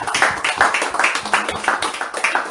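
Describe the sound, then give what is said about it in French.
Audience applause at a church worship service: many hands clap together in a dense, steady stream with regular pulses, loud and even throughout. “Applaudissons encore pour le Seigneur.”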